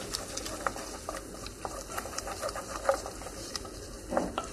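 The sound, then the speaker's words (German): Food is stirred while cooking, a faint, continuous texture of soft scraping and light patter with small irregular clicks throughout, with no voices. “Ja, schön umrühren.”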